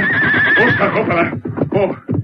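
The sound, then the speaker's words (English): Stagecoach lead horses whinny as the coach is brought to a halt: one loud, long, wavering whinny, then a few shorter, rougher bursts. “Slowly but surely, the stage was brought to a stop. Then the Lone Ranger called out to Tonto, who sat holding the reins of the lead horses.”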